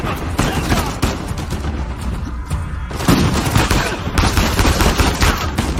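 Gunshots ring out from the opposite side in a dense, loud barrage of many overlapping shots and bursts. The firing keeps up almost throughout, with a brief lull near the middle.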